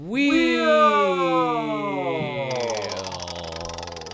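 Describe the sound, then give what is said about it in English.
A prize wheel being spun as a game sound effect: a loud, buzzy harmonic whine slides steadily down in pitch, then gives way to rapid, fine ticking as it slows. “Where There's a Willis, There's a Way podcast is we always say the same thing in unison when we spin the Wheel of Willis”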